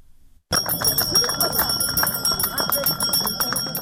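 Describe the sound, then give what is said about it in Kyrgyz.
Hand bell rung by a small boy for the first day of school, its bright metallic clangs repeating rapidly in an uneven jangle. Voices and bustle carry on underneath. “Биринчи коңгуроону шыңгыратып аткан”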